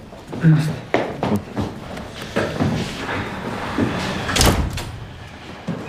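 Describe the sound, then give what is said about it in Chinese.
A door is pulled shut, its knock and thud sitting among a few other bumps and shuffling noises in a room where people are present. “门关上。”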